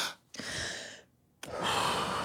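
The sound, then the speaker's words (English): Two long, deep breaths of airy, breathy rushing, separated by a short silent pause, with the second breath a little longer than the first. “Deep breaths.”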